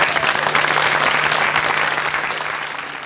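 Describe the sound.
An audience applauds to welcome the band Virgin Prunes, giving dense, steady clapping over a low hum. The clapping eases slightly toward the end.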